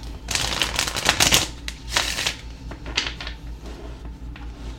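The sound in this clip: A deck of cards being shuffled in crisp, riffling bursts, densest and loudest in the first half, then thinning into a few softer rustles and snaps, with no talking.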